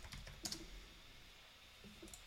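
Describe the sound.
Typing on a computer keyboard: a short flurry of light plastic key clicks near the start, a pause, then a few more taps toward the end, all faint and with no talking.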